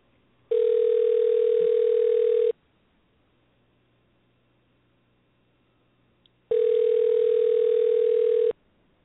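A telephone ringback tone for an unanswered call: two steady two-second tone bursts separated by about four seconds of silence, with a faint click just before the second ring.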